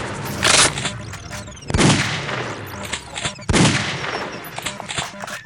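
Rifle gunfire in a video game: three heavy bursts of shots stand out, with quicker, lighter cracks scattered between them throughout.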